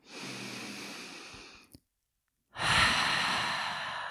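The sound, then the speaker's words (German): Deep relaxation breaths are released through an open mouth. A long, airy breath is followed by a short silence, then a second full breath; both are soft, breathy and unaccompanied by talk. “Dann nimm ein paar tiefe Atemzüge hier ein und aus. Gerne mal durch den geöffneten Mund loslassen.”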